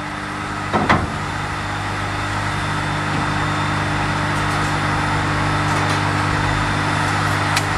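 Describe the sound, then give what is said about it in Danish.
An angle grinder runs steadily, cleaning mortar off stone. It makes a loud, continuous, even drone with a brief knock near the start. “Nu kan man faktisk høre det, altså vinkelsliber, der kører og renser den.”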